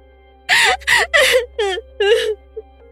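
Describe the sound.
A man fakes crying with a series of five loud, wavering sobbing wails separated by short breaths, followed by one brief whimper.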